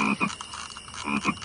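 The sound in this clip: Frog croaks sound in a quick rhythmic series of short, throaty pulses, moderately loud and with no talking.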